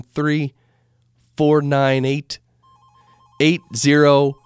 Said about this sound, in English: and look at this. We actually have a phone call.